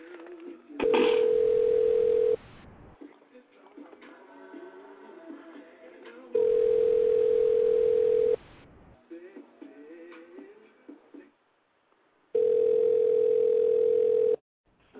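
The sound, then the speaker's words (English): A telephone rings out on a call in three long, steady ringing tones of about two seconds each, with someone talking in the gaps between them. “So I'm going to go ahead and dial her up and see what it do.”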